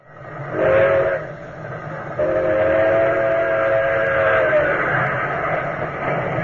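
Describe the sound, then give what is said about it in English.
A train rushes along rails toward a busy city terminal, a steady loud rumble throughout, with a short whistle blast near the start and a longer held whistle tone after it. “Drawn by the magnetic force of the fantastic metropolis, day and night, great trains rush toward the Hudson River,”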